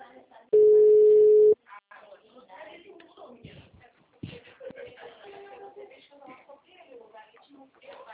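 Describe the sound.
A steady telephone line tone sounds for about a second as a call drops on a weak, out-of-coverage connection. Rustling handling noise and a voice speaking follow.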